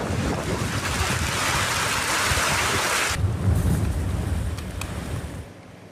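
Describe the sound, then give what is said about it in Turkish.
Loud, unbroken roar of a sudden heavy downpour flooding city streets, a dense rushing wash with buffeting wind noise that changes character midway and fades at the very end. “Kayseri'de de bir anda bastıran sağanak vatandaşlara zor anlar yaşattı. Kent merkezinde yollar suyla doldu, sürücüler ilerleyemedi.”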